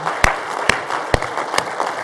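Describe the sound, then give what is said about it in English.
Audience applause as five sharp, evenly spaced claps in a steady rhythm, each a loud crisp hit over a low continuous wash of noise. “You want to applaud? Go ahead and applaud.”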